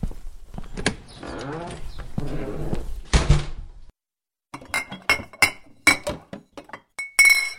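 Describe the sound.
Glass bottles clink as someone rummages for schnapps. A voice speaks first, then after a brief silence comes a quick series of sharp, bright clinks and knocks of glass against glass.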